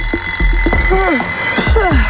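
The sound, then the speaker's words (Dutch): An alarm clock rings with electronic chirping tones that sweep up and down in pitch, repeating over a steady high tone with short clicks between the chirps. “Ja, de wekker kan vreed wezen.”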